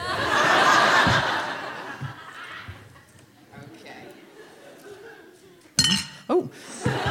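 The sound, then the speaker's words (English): Crockery and cutlery clink as they come out of a large box marked fragile: a couple of sharp, bright clinks arrive near the end, after laughter and chatter. “And she's now bringing out crockery and cutlery.”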